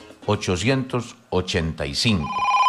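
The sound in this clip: An old telephone bell rings briefly at the very end, after a stretch of talking. The talk concerns the history of telephones in Colombia, which began in 1885.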